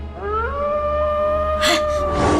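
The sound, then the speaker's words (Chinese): A wild wolf's howl: one long, wailing call that rises at the start and then holds a steady, drawn-out pitch, ending in a brief noisy burst. “金娃听到了狼的叫声”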